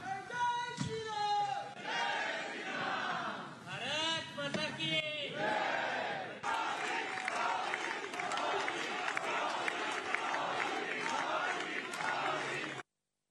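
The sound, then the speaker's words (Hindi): Members of the Indian community in France chant welcome slogans such as Bonjour Modi and Bharat Mata ki Jai for Narendra Modi in Paris. The chant comes in rhythmic massed bursts at first, then gives way to continuous crowd cheering, all fairly faint. “इससे कबल France में भारतीय बिरादरी ने बोंजोर मोदी या hello Modi और भारत माता की जय के नारों के साथ वज़ीर-ए-आज़म नरेंद्र मोदी का खैर मकदम किया।”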